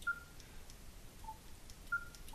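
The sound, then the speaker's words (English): Short electronic beeps come from a radio as its receiver attenuator button is switched, a few faint tones with higher-pitched beeps alternating with lower ones, separated by quiet gaps over a soft hiss. “It attenuates the receiver. When you hear a high beep, that attenuator is turned on.”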